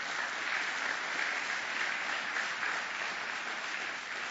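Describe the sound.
A church audience applauds during worship, a dense, steady crowd clapping that stays at an even, fairly loud level throughout without pause.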